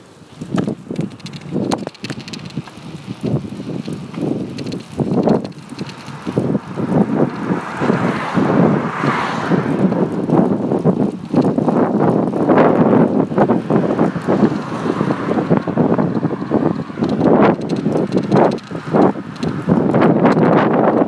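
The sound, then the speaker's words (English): Wind buffets the microphone during an outdoor bicycle ride to the gym, a loud, steady rushing roar with gusty swells and bumps throughout. “Riding my bike for some reason. I decided to record myself.”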